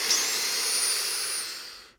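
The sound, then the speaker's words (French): A deep, slow inhale through the nose, a steady breathy hiss lasting nearly two seconds that tapers off at the end, heard alone without talk. “Inspirez profondément par le nez comme si vous inspiriez cette odeur.”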